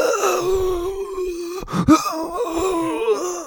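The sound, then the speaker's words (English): A human voice imitates a mix of coughing and wheezing with a drawn-out, strained groaning tone broken midway by a sharp, breathy gasp, then continuing in a rough, wavering moan. “You hear what sounds like a mix of like coughing and wheezing.”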